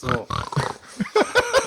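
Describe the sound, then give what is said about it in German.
A person imitates a pig's oink as a game buzzer, making several short, throaty grunting snorts in an uneven rhythm. “Und wenn dein Buzzer ist halt das Schweinegeräusch, dann machst du und dann bist du quasi bist du dran, okay?”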